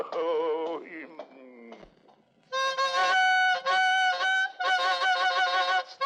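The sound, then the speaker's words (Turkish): A bugle plays a march in loud, brassy, honking notes. A few lower blasts step downward, then after a short pause comes a run of sustained, blaring notes in rhythmic bursts. “Borazan değil cehennem gürültüsü bu. Ölüleri bile mezarlarından kaldırabilir. Sustur şunu.”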